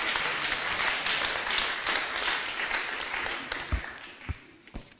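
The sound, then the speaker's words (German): Church audience applauding in praise of Jesus, a steady wash of clapping that gradually thins, ending in a few sharper, separate claps. “Give Jesus praise. Lasst uns ihm einen Applaus geben.”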